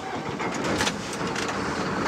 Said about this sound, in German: Drei Kunden waren da und jetzt geht's weiter ins nächste Dorf. Und ich darf mitfahren jetzt. Auf dem Beifahrersitz, beste Sicht. Und jetzt fahren wir nach Priros.